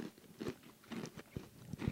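Crunchy bites and chewing on a cookie: several crisp, crackling crunches in an uneven rhythm, fairly faint and with no talking.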